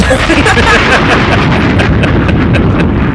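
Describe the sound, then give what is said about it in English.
A bomb explosion sound effect rolls out as a loud, dense roar with a deep rumble and crackling bursts, holding at a steady level for the whole span without a clear single blast. “Drop a bomb for that.”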